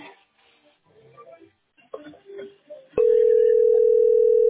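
A telephone dial tone while calling directory inquiries: after a few seconds of faint scattered handling noises, a click brings in a steady, continuous mid-pitched tone that holds loud until the end.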